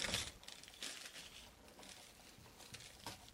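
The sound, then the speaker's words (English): Faint crinkling and scraping as a cardboard box is opened, a few short rustling bursts with no talk. “Let me just open my box here.”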